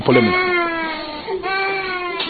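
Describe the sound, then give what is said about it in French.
Young children crying after surgery, their hands bandaged: two long, high, wavering wails with a brief catch between them, loud and continuous. “Ces enfants qui pleurent viennent d'être opérés et leurs mains sont soigneusement bandées par le médecin pour les empêcher de se toucher aux plaies.”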